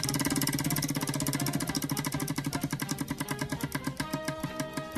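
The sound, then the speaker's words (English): Rapid mechanical ticking of a spinning prize wheel: a dense run of clicks that gradually slows and spreads apart toward the end, with no voices over it. “Let's spin the wheel.”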